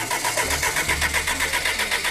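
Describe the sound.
Lancia Delta Integrale Evo 2 that looks brand new but is not in good order, its engine being cranked to start with a fast, even, rhythmic churning at steady loudness.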